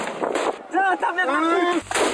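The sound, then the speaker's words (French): Gendarmes' grenade launcher firing a GM2 grenade toward protesters at Sainte-Soline: loud, booming blasts at the start and end, with a raised voice in between. “Allez les gars, tir de GM2A, l'objectif des manifestants.”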